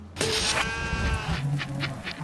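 Sheep bleating while being sorted in the middle of the night: one loud, wavering bleat, then a few fainter overlapping bleats.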